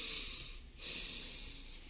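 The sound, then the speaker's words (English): A deep breath taken before a prayer, a soft, steady breathy rush that stays fairly faint throughout. “let's just take a deep breath before the Lord.”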